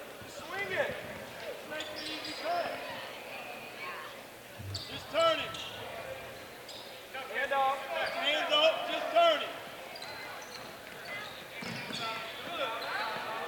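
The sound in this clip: Basketball dribbling on a court during a game: a few dull bounces of the ball under continuous play-by-play commentary and arena noise.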